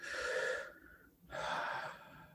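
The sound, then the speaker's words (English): A deep breath taken during a guided meditation: a drawn-in, airy inhale, a short pause, then a long, breathy exhale of similar loudness. The breathing is fairly quiet and no one speaks. “Now take a deep breath.”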